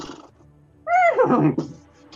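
A pony whinnies once, a loud, bright neigh with a wavering, slightly falling pitch that breaks into rougher bursts before fading, with no talk over it.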